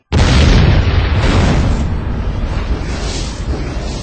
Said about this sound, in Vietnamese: Một tiếng nổ vang trời lở đất, cái hang sụp đè chết cả thầy lẫn trò.